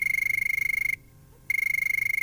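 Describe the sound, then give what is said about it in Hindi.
Telephone ringing in a studio: two bursts of a rapid, high, trilling electronic ring separated by a short silent pause, loud and alone. “बज उठी phone की घंटी”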